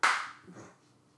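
One sharp hand clap, loud and bright, from a person indoors near the couch. It dies away quickly and nothing follows.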